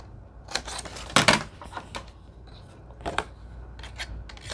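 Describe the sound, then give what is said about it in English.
Large scissors cut small paper file folder cards for a junk journal, making a few crisp, irregular snips and rasps, with one louder burst of cutting among quieter strokes. “And we'll cut our little file folder cards out.”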